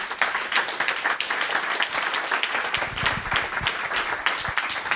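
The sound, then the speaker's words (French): An audience claps loudly to thank an organiser at a live science event in Lyon, a dense, continuous applause that stays steady for the full five seconds with no talk over it. “Donc dites merci à Martin en l'applaudissant très fort.”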